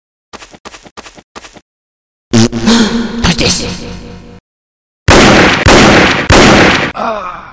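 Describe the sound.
Gunfire in a first-person shooter video game: four short, rapid bursts of shots, then two longer, loud stretches of continuous shooting separated by a brief pause.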